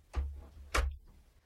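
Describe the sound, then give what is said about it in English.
A door closing gives two short, soft thuds about half a second apart, each with a dull low knock beneath a brief click. “Can we close the door? Yeah, sure.”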